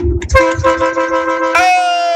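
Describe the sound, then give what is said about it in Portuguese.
A truck horn honks from a trucker coming from Paraíba: a loud, sustained, musical blare that shifts to a brighter note partway through and holds to the end. “essa buzina é primeiro.”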